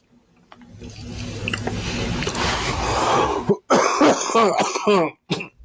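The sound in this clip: Coughing and throat clearing from someone who nearly choked on food while tasting snacks: a few harsh, loud bursts come close together near the end, after a stretch of steady noise.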